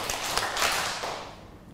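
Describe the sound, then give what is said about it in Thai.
Children clap their hands on their teacher's cue, a scattered run of sharp claps from a group landing slightly out of sync before fading. “ถ้าบอกตบมือ2ครั้งค่ะ”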